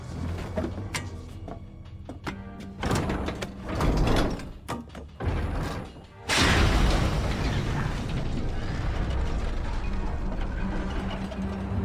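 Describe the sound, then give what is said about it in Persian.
A door slides open with a loud, broad rushing scrape that starts abruptly past the midpoint and holds to the end, after a run of shorter mechanical clatters and knocks. “در باز کن”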